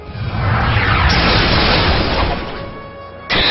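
A loud, noisy blast-like burst for the Nightstick attack move in a turn-based monster battle video game, swelling quickly and holding for about two seconds before easing off, then a sharp fresh burst at the end.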